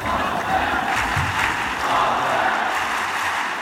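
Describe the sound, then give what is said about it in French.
Tennis crowd at Roland-Garros on Court Philippe-Chatrier cheering and applauding Roger Federer's return, a loud, dense, continuous roar that holds steady throughout. “Vous l'entendez, Roger Federer a fait frissonner le public, effectivement, ravi de le retrouver 4 ans après sa dernière apparition sur le court Philippe Châtrier. Et cela s'est entendu.”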